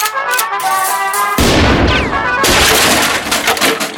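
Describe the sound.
Gunfire from a cascade of .303 ammunition and an exploding travel gramophone, heard as a loud, dense wall of crackling shots with sudden heavier blasts breaking through the steady roar.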